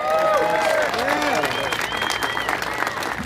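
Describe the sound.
A crowd applauds Denver mayor Michael B. Hancock at an outdoor boulevard ceremony. Steady, loud clapping fills the whole clip while people talk over it.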